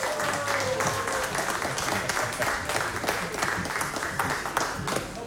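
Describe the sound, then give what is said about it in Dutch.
Warm audience applause welcoming poets at a live theatre-festival event, dense and steady clapping from many hands throughout. Moderately loud, with no talk over it. “En mag ik een warm applaus voor Joost Ome en de Poëzie Boys.”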